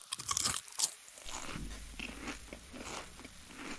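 Crunching of Bamba peanut puff snack: a few loud, sharp crisp crunches at the start, then softer, steady chewing and munching continuing alone without speech.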